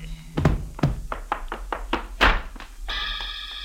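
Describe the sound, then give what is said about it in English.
Blows struck with the butt of a gun during a scuffle: a quick run of dull, heavy thuds with one harder strike near the end, then a sustained tonal chord takes over. “his arm went around, and I guess the butt of the gun went with it.”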